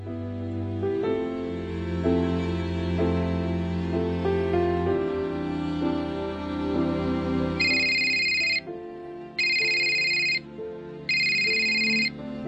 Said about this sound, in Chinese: 又唔听电话